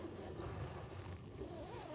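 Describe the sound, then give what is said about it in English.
Beards rubbing against microphones make a soft, continuous rumbling friction noise, faint and steady, with no talking. “I like how our beards all sound different because they're different lengths.”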